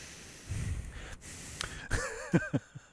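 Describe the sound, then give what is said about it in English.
A voice imitates heavy breathing through the nose: a few rough, breathy nasal exhales, followed by brief voiced, wavering sounds near the end. “He breathes out of his nose so much.”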